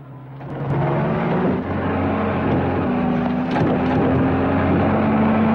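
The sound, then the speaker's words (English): A battered, light-colored jeep's engine drones as it bounces through low, ground-hugging bushes on an open plain, a loud, continuous motor hum that swells in at the start and holds steady throughout. “On the plain, a battered light-colored jeep bounces through ground-hugging bushes.”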